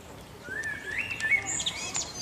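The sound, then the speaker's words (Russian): Birds sing in the grounds of Villa del Balbianello, with a run of quiet, thin, high chirps and whistled notes that come in short bursts over soft background noise. “А как птички заливаются,”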